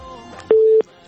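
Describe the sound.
A telephone line connects as a caller is put through: one short, steady electronic beep after faint talk.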